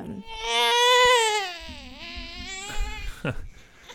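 A baby fusses and cries: one long, loud wail whose pitch sags and then climbs again, followed by shorter, broken whimpers.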